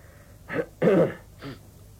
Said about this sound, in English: Was that it? Right, if I ever need a throat clear, I'll be in touch straight away.